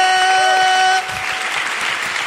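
Applause for a female prize winner at a quiz game: steady clapping from a group, with a held tone in the first second, then clapping continuing alone at a slightly lower level.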